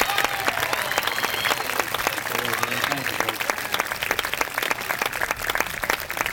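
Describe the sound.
An audience applauds to welcome a fiddler onto the stage with dense, vigorous clapping. It holds steady and loud for the whole stretch.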